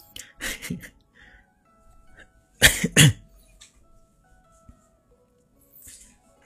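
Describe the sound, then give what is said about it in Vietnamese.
A person who has lost their voice coughs in a few harsh, sharp bursts. The loudest two come close together midway, with faint rustles and quiet gaps between. “Mình tắt tiếng để mình ho.”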